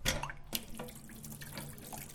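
Hot water runs from a tap in a steady, faint, even rush of splashing, with no voices.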